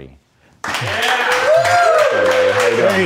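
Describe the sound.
Audience applause welcoming a guest onto a stage show. After a brief moment of quiet, loud clapping breaks out and holds steady, with voices rising over it.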